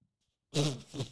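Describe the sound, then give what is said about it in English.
A short, rough burp with a fart-like, rasping quality breaks a brief silence and rumbles loudly for just over half a second. “Sorry. That was a burp. That was a fart burp.”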